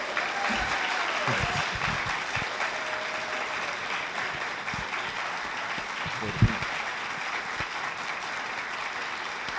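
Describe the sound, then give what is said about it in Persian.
An audience applauding after a nervous performer on stage asks for a hand. The clapping is steady and sustained for nearly ten seconds, with one sharp, louder clap standing out partway through. “یه دست میشه بزنید”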